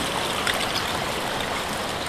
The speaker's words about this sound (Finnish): Toi aalto voi puhaltaa jopa sitten yli tästä. Kiven yli.